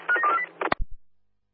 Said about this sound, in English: Oscar on standby for a phone call.